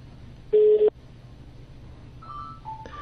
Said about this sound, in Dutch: En je hoort hier nu de telefoon overgaan. Ik zet hem uit.